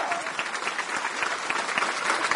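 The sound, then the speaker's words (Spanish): Applause from a church audience during a service: dense, continuous clapping that stays steady and fairly loud for the whole clip, with no break in the sound. “Y todo el pueblo dice: aplauso para el Señor”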